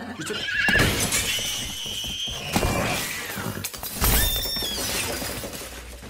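A pony whinnies in shrill, wavering bursts, a long one early on and a shorter one later, over a dense, busy clatter of other noise.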